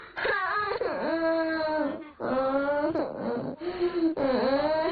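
A child cries in loud, drawn-out wailing sobs. The high, wavering pitch rises and falls within each cry, and several long bursts are separated by short breaks for breath.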